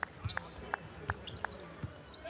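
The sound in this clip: A basketball is dribbled on the court, giving many quick, faint thumps in a fairly steady rhythm.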